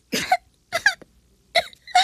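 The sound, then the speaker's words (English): Someone learning to smoke a cigarette coughs: a few short, harsh coughs in two pairs, with silence between the pairs. “It took a while to learn to smoke without coughing”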